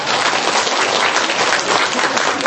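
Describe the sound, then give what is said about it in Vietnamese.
Audience applause after a Buddhist dharma talk, a dense, steady wash of many hands clapping at moderate loudness, continuous throughout with no voices over it. “Vỗ tay đi, từ nay không có gì thắc mắc hết.”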